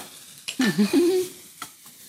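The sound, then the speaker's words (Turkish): Turkey meat sizzling in a pan with no oil, a soft hiss that swells for about half a second and then fades, with a few brief bumps and squeaky low tones around it. “Tavaya yağ koymadan hindi etlerimi koydum.”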